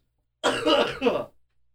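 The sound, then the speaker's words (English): A gruff throat clearing with a cough-like push, one rough burst under a second long, loud and alone against silence, with a second surge just before it breaks off. “Yeah, you got a problem with me coughing? Get over it.”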